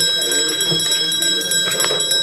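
An electric bell rings continuously to call municipal council members in for a vote, a steady, shrill metallic ringing with sustained high tones and no breaks.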